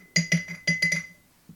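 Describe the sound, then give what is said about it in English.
Spoon clinks against a glass jar as a tablespoon of banana powder goes in: a quick cluster of bright, ringing taps, then a single fainter clink after a short pause. “Can you hear that? That's the sound of powder going in the jar.”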